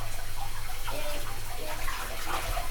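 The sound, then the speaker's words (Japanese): Shower water runs in a continuous hissing spray that stays steady from start to finish. “冷たいのやだ、シャワーが冷たい、あったかい、”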